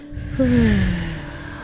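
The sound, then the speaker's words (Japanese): A long breath pushed out during a guided breathing exercise: a breathy whoosh that starts suddenly and fades over about a second, with a faint voiced tone that slides down in pitch. “じゃあちょっと息をふーって一緒に吐いてみようか、じゃあたくさん吐くよ”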